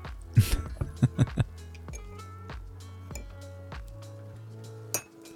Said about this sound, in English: Oh, you stir that tea like a pro.